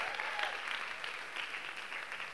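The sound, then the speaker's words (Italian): Applause rises from an audience at a Sunday evening church meeting, a steady, fairly quiet patter of many clapping hands that continues without a break. “Facciamo un applauso anche ad Andrea.”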